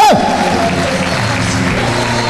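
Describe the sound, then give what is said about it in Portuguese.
An audience applauds during a church service, with dense, continuous clapping that stays loud and even through the whole stretch. “Aplaudam o nome do Senhor Jesus de Nazaré.”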